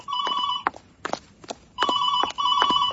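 Telephone ringing in trilling, warbling bursts of a high tone, repeated a few times, with a few sharp knocks in the quiet gap between rings.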